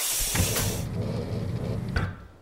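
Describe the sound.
A containment cell door opening, heard as a broad mechanical whoosh and hiss lasting about two seconds, with a few short knocks or clunks within it, before it fades out.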